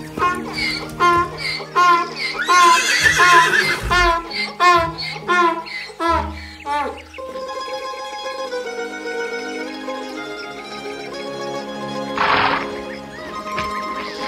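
A horse whinnies in a few shaky, high-pitched bursts during the opening seconds, on a hot day out walking. Steady background sound continues under the calls.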